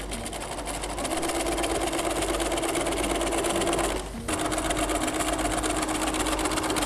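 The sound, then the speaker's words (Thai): A sewing machine stitching folded, pressed fabric during a sewing lesson gives a steady, dense mechanical whir that runs on continuously, breaks off briefly near the end, then starts again. “เราจะได้เย็บง่ายขึ้นเราก็เริ่มเย็บนะคะ”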